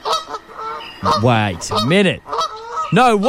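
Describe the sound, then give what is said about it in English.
Canada goose honking: a few loud, nasal, harmonic honks with bending pitch, and a person exclaims briefly between them. “That is a Canada goose if I've heard one in my life. That is a Canada goose for sure.”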